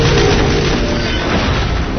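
Gunfire and explosions from a video game shown at the E3 trade expo form a loud, dense, continuous roar of booms and bursts that fills the whole clip with no pause.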